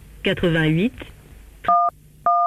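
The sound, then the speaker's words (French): Telephone keypad tones from an automated France Télécom service connecting a call. A short voice comes first, then two separate dual-pitched beeps, each clear and steady. “France Télécom vous met en relation avec le 03.”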